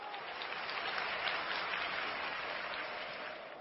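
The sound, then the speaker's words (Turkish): Audience applause, a dense wash of many hands clapping that swells early, holds strong, then eases slightly toward the end. “Hogwarts'tansanız alkışlayın. Durmstrang'tansanız alkışlayın.”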